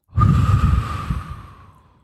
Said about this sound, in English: Deep breath in. Empty the mind of talk on the out-breath.